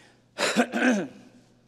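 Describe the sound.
Throat clearing from a person with allergies: two short, rough, voiced bursts in quick succession, fairly loud, with no talk around them.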